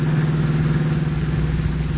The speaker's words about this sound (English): Reaching the end of the waterfront road, the car swings into an old, little-used highway and speeds into the country. Turning into a narrow road, it is now rolling down a steep hill